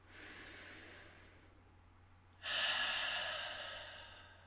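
A deep breath taken before a sound-healing meditation: a soft, airy inhale followed after a short pause by a louder, longer breathy exhale that slowly fades, all quiet and hissy.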